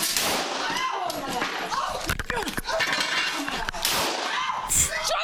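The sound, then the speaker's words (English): A couple of sharp gunshot cracks ring out close together in a video game. They sit in the middle of busy game sound while a voice talks over them. “Shots fired, and I missed both of them.”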